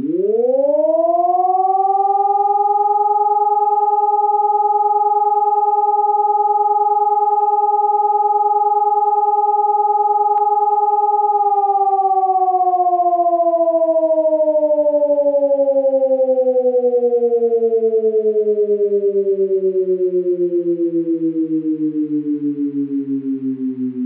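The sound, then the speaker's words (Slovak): A civil defense siren test: a loud siren winds up over a few seconds, holds one steady wailing tone for a long stretch, then slowly slides down in pitch toward the end, with no voices. “Pozor, zkouška sirén. Pozor, zkouška sirén. Pozor, zkouška sirén.”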